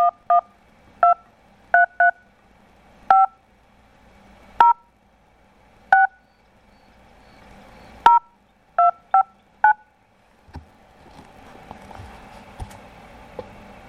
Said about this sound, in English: Please enter the telephone number you wish to dial now.